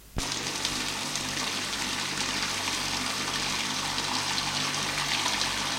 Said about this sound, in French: Il entend l'eau qui coule.